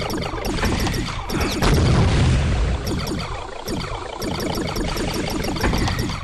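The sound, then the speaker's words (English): Missiles fire and explode in a space shooter video game: a run of booms and crashing bursts, with a heavier, rumbling blast early on, followed by more scattered explosive hits at a fairly loud level and no talk. “Wait, I thought you hit M to launch missiles. Can't even hit these damn things.”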